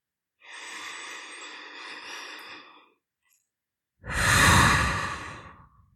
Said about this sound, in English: And now I want you to take 3 deep calming breaths.